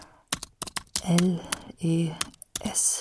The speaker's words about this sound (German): Zu Hause tippe ich ein.